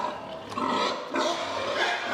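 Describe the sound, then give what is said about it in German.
A herd of young sows grunts and squeals at feeding time in a dense, rough chorus of overlapping calls. It is moderately loud and continuous, swelling in two surges with no clear gaps. “In dieser Herde sind viele junge, ungestüme Sauen. Deshalb sind sie beim Fressen in Einzelboxen.”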